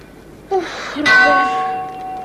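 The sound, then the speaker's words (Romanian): A ship's bell rings at sea in fog. A short strike is followed by a louder stroke whose bright metallic tone hums on and slowly fades. “De ce bate într-una clopotul acela, Robert? Din cauza ceții, ca nu cumva să ne lovim de altă corabie.”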